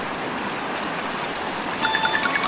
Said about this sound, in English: See, the creek is running in two streams here.